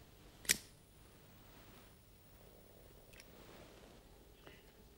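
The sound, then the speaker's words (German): A single sharp, crisp snip as the holding ropes on floating blocks are cut during a magnet-and-iron demonstration. A couple of faint ticks follow later over a quiet background. “Und dazu muss ich jetzt erst einmal die beiden Halteseile durchtrennen.”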